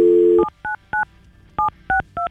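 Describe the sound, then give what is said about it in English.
A telephone number is dialed on a touch-tone phone. A steady dial tone cuts off, then several short two-note keypad beeps follow in an uneven rhythm. “We've got Taylor's phone number, and we're going to call her now.”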